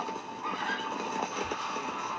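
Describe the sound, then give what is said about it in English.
Horses whinnying as they flee a scene of slaughter, their neighs set against a dense, steady wash of noise that continues throughout. “Yep, the horses got up out of there.”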